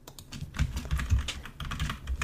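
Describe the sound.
Rapid typing on a computer keyboard: many quick, irregular keystrokes clatter in a continuous run at moderate loudness, with no voices.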